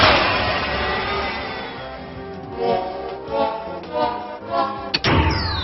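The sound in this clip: A monster capture sound effect from the video game Manamon: a series of muffled thuds and bangs that swell in loudness, ending with a sharp, abrupt hit near the close.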